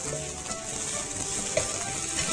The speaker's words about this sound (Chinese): 不要炒焦了啊、哦，因为这个油呢很热呢，很容易哦把这个香菇炒到焦掉啊、哦，所以你的这个动作呢可能要不断的去搅拌它。